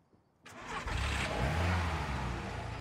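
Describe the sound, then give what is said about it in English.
A car engine bursts into life and revs up as the car drives away, then settles into a steady, throaty drone that stays fairly loud to the end. “Brian goes back into the house and Gavin drives away.”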